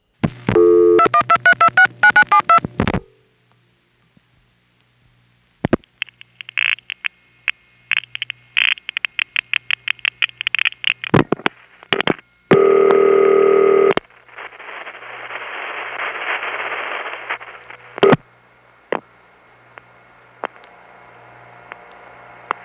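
A telephone dials a supervision test number and reaches an intercept: a quick run of dialing tones, then many sharp clicks and short tone pulses, a steady loud tone, a hissing stretch, and scattered further tones.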